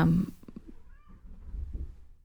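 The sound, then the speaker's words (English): A pet cat meows in the background, a faint, short, slightly tonal call over a low rumble, with no talk during it. “sorry, that was our cat in the background again.”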